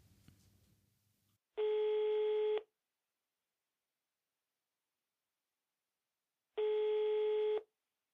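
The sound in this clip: Ringing tone heard while placing a phone call: two steady buzzing beeps of about one second each, roughly five seconds apart. A brief stretch of faint noise precedes the first beep, and silence separates the two.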